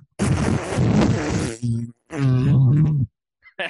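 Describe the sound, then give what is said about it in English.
Mouth-made fart noise blown straight into a microphone: two long, loud, buzzy raspberries, the second steadier and more tonal, followed by a couple of faint short blips. “just made a fart noise into the microphone”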